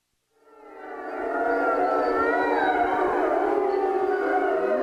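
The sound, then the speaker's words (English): Thirty-seven wolves howl at dawn on a high grassy ridge in Colorado's Wet Mountain Valley, at a wolf sanctuary. The chorus swells in quickly, then holds as a loud, dense web of overlapping sustained howls at many pitches. “That's the sound of 37 wild wolves greeting the dawn here at Mission Wolf.”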